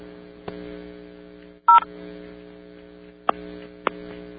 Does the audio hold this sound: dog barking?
no